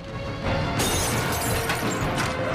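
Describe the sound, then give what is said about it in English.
A werewolf's claw smashes through a boarded-up window in a loud, dense crash of breaking and shattering, with splintering noise that stays harsh and sustained throughout. “A werewolf's claw smashes through the boarded window behind Joe”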